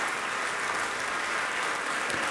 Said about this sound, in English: in Bennett Gordon Hall, again acknowledging the applause of an appreciative audience